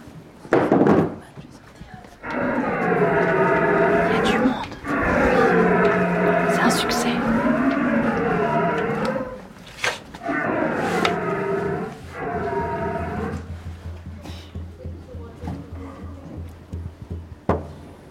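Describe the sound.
A person imitating the bell of a young stag deer at a stag-call imitation contest: several long, deep, wavering roars with pauses between them, some lower and steadier than others, with a few sharp knocks.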